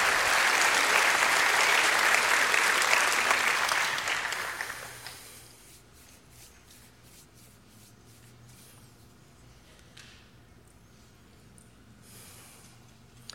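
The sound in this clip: An audience at a church service applauds, a loud, dense burst of clapping for about five seconds that tapers off into near quiet, with a few scattered small noises after.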